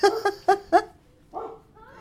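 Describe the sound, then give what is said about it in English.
A dog barks four times in quick succession with sharp, mid-pitched barks, then gives two softer, drawn-out whining yelps, heard alone. “That's your dog barking in the background, yes, by the way.”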